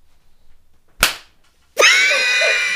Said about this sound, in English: So that's my riding crop, and then I've got a little flogger.